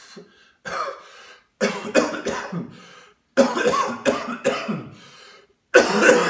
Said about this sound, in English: now you really want to get some deep coughs.